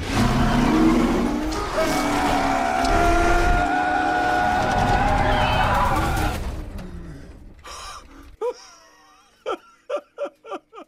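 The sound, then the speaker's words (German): A race car at full throttle on a test drive: a loud, sustained engine roar with a bright high whine holds for about six seconds, then drops away. A few short, sharp sounds follow in near silence. “lädt Shelby Ford zur Testfahrt ein. Bereit? Ich wurde bereit geboren, Mr. Shelby. Vollgas!”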